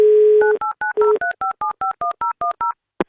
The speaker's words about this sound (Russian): Ну что же, мы попробуем дозвонить ему еще раз.